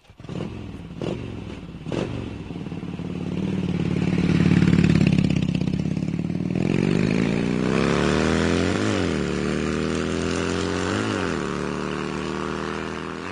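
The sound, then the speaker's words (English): A motor tricycle engine revs hard, a steady throaty drone that swells in loudness, then climbs and dips in pitch with a couple of sharp throttle blips, after a few light clicks at the start. “Boy, Grandpa's a little heavy-handed with the throttle. Yeah. Have you noticed that? Yeah. Well, you know what it is? It's that tricycle”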